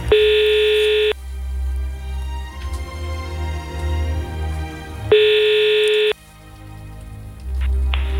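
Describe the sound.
Ringback tone of an outgoing telephone call while a number is being dialed: two steady, buzzy tones, each about a second long, start four seconds apart over a low background hum.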